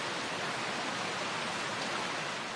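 Steady rainfall, a dense and even hiss of drops that stays fairly faint and never breaks.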